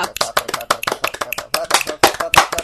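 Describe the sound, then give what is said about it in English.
Rapid sharp finger snaps made for audio sync, a dense run of many crisp, percussive clicks in quick, uneven succession with no talk. “I snapped once and then I just snapped a bunch now.”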